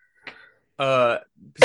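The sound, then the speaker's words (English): Someone coughs straight into the microphone: a few short, close, fairly loud bursts, including one longer voiced hack in the middle, with silence between them. “Thank you for coughing in the microphone.”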